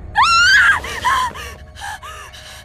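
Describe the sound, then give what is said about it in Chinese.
A man in bed screams in fright: one loud, high cry that rises and then falls, followed by a few shorter gasping cries that grow fainter. “吓得他尖叫一声，直接从床上弹起来”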